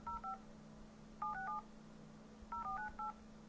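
DTMF touch-tone beeps of a telephone number being dialed by hand, in three separate clusters of quick, clear, mid-pitched tones with short pauses between them, over a faint low hum.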